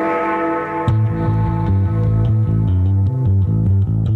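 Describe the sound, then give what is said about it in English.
Upbeat synthesized music from the Windows 98 tutorial plays loudly throughout, a late-1990s computer track with a repeating bass line, layered synth chords and a steady ticking rhythm, with no voices. “What you're hearing now is that awesome tutorial track, which is about as 90s as it gets.”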